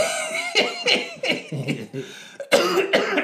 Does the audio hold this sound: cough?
yes

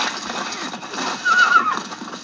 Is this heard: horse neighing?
yes

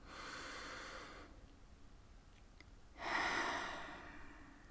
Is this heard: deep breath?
yes

